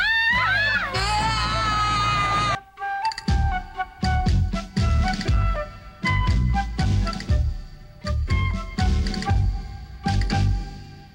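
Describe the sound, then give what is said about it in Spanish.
Girls screaming in an animated monster-attack scene. A sustained, high, wavering scream holds for about two and a half seconds, then gives way to a busy stretch of loud, choppy bursts. “Los gritos de esas muchachas se oyen más bellos que el sonido de cualquier instrumento musical.”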